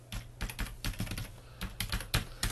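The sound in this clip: Typing on a computer keyboard: many quick, light key clicks in an uneven, busy rhythm, fairly faint, with no talk.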